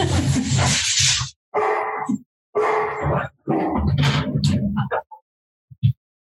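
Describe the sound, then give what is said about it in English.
Dogs barking and whining indoors: several loud, rough bursts, then a couple of short, faint yelps near the end. “Apologize for the dogs.”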